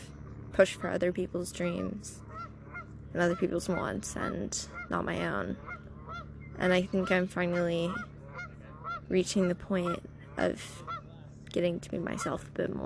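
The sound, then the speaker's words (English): Geese honk repeatedly in the background at sunset, their calls coming in irregular bursts while a person talks quietly over them. “There's some geese in the background, you might hear those”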